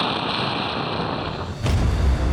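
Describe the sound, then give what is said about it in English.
A thermonuclear array detonates at the South Pole of Mars: a steady, dense hiss runs for over a second, then a sudden sharp burst breaks in and gives way to a heavier, deep rumbling roar that holds to the end. “Counter 9 detonated the entire South Pole thermonuclear array.”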